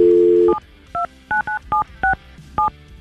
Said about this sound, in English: let's see if she answers the phone and what she has to say.